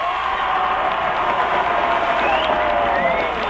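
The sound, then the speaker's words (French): A crowd gives a dense ovation to a silver medallist at an equestrian show-jumping event, with sustained loud clapping and cheering that stays steady and full from start to end. “Et là, ce sera l'ovation.”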